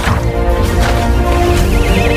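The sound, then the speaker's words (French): A pony whinnies loudly in a long, wavering, high-pitched neigh that shakes in pitch toward the end, over a dense, busy background. “Moi, ça m'étonne pas qu'il soit échappé, ton poney. Mais comment tu traites tes animaux?”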